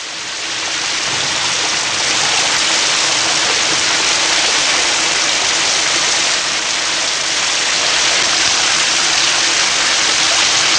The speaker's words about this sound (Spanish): nos vamos directamente a la escena, una de las escenas más icónicas de la historia del cine, ¿eh? La escena de la famosa ducha de Janet Leigh y Psicosis